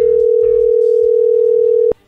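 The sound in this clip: A steady telephone dial tone while someone places a call. One loud, unbroken electronic hum holds for nearly two seconds, then cuts off abruptly with a click.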